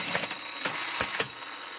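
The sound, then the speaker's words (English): An industrial sewing machine stitches a buttonhole on the button fly of a pair of denim jeans in a workshop, giving a steady mechanical whir broken by a few sharp ratcheting clacks. “And I'm dropping by his workshop just as he's sewing the button fly on my jeans.”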